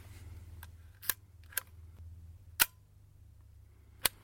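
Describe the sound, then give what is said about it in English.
Camera shutter clicks: several sharp, dry mechanical snaps at irregular intervals. They are fairly quiet and stand alone against a faint background hiss. “Shutter sound number 1, 2, 3, 4, 5, 6.”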